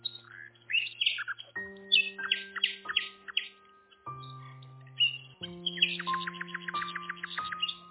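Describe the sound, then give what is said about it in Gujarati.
Small songbirds chirp in many quick, high, bright bursts that come in irregular clusters, fairly faint, over sustained low steady tones. “અને ખુશ રહેતા નાના અવાજ કરનારા પંખીઓ પણ બનાવ્યા।”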